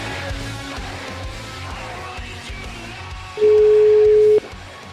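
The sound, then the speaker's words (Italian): A telephone tone sounds as a call is placed: one loud, steady, level beep about a second long, rising sharply out of a quieter background and then cutting off. “Sinagra, sentiamo, no? Chiamiamo. Proviamo.”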